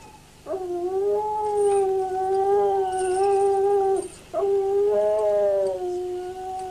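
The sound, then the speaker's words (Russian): A dog howls in two long, sustained wails, each holding a steady, clear pitch before a brief pause separates them. The sound is loud and carries on its own with no voices. “А собака почему воет?”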